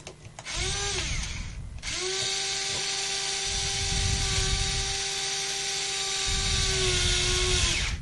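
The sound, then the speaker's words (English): An electric screwdriver drives a screw with a high, steady motor whine: a brief burst, a short pause, then a long continuous whir that holds a fairly even pitch for several seconds. “Now, I'm going to use an electric screwdriver for this part because, frankly, it's a lot easier. So I'll zoom out so you can actually see there. I'm just going to pop the electric screwdriver on.”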